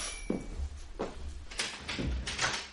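A front door opening in a home, heard as a few dull thuds and clunks with broad rattling noise between them, moderately loud and steady throughout.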